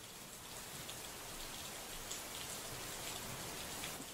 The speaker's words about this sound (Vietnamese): đêm hôm ấy trời tự nhiên đổ mưa to, mưa dữ tợn lắm.